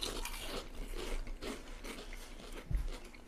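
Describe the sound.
A potato chip is bitten and chewed in a taste test, a faint crunching with one sharper bite standing out near the end.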